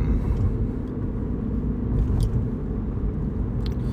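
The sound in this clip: Steady low rumble of a cheap, flimsy, tinny-bodied car being driven home, heard from inside; a constant engine and road drone holds at an even level throughout with no talk.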